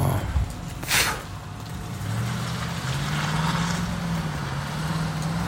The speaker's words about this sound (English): the new Tahoe trucks is a slick looking truck. One just pulled up.